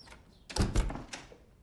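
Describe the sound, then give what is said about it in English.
A door opens inside a home by a staircase, giving a brief, muffled thud and low rumble in the middle of a quiet stretch, with no talking. “At Chris's home, a door opens and light shines across the staircase.”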